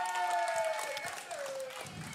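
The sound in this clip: Audience applause for a couple's engagement announcement, a steady wash of clapping and crowd noise with a voice sounding over it.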